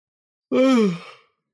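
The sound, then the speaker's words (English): A single drawn-out yawn, heard alone: one voiced breath of under a second that starts abruptly, slides downward in pitch and fades off breathily. “a yawn is not encouragement.”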